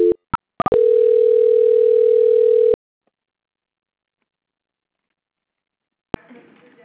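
Telephone line tone as a call is transferred to a bank's quality-control line. A few short clicks and beeps lead into a steady mid-pitched tone lasting about two seconds, then silence and faint noise at the end.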